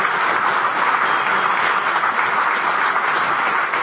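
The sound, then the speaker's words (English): A round of applause from a crowd gathered in a factory building, even and sustained throughout, with no voices standing out. “I'll give him a round of applause anyway.”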